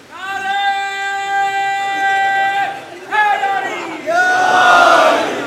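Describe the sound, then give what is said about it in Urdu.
A crowd chants a religious slogan in unison in three loud, sustained surges. The many voices blend into a strong, ringing roar that rises again with each shout. “کہیں واقعاً نعرہ بلند کرنے کی ضرورت ہے نعرہ بلند کیجیے”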